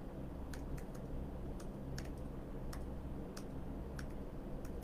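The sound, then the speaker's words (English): Typing on a keyboard: many light, irregular keystroke clicks, some in quick pairs, tapping faintly over a low steady background hum. “Let's type that one out.”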